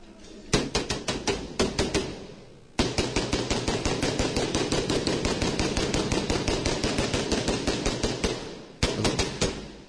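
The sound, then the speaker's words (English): Rapid automatic gunfire comes from a gun ejecting shell casings, many sharp shots in a fast, even rhythm, broken into three bursts by two brief pauses. “Let's try it again. And look, you can see the fucking casings get shot out. See that? The casings are getting shot.”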